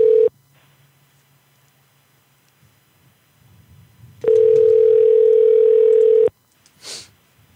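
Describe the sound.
A telephone dial tone sounds while a call is placed: a brief burst of steady tone, a few seconds of low line hum, then the same even tone held for about two seconds before cutting off, followed by a short soft noise.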